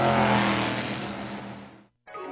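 A muscle car engine revs in a loud, sustained roar that eases slightly, cuts out briefly near the end, then picks up again.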